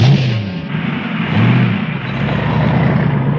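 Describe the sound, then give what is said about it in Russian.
A car engine runs with a steady low rumble under a broad wash of road noise, holding at a fairly even loudness throughout. “Проезжает несколько метров и останавливается.”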